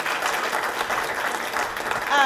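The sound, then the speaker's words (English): Audience applause for a speaker at the close of a talk: continuous dense clapping from many hands, fairly loud and even throughout. “Can we have another round of applause for Michelle? Thank you all.”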